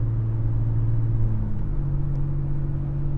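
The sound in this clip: Steady low engine rumble and road hum from a car driving through a town, holding even and fairly loud throughout with no voices.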